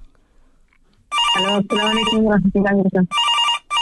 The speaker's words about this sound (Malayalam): നമുക്കൊരു കോൾ ഉണ്ട് തോന്നുന്നു അല്ലേ.